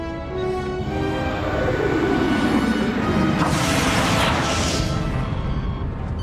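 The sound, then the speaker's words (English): A shockwave strikes a starship running full power to its shields. The loud, continuous roar carries a descending tone and briefly turns brighter and hissier in the middle. “Another one, 5 million kilometers to port. A shockwave is approaching. Full power to the shields.”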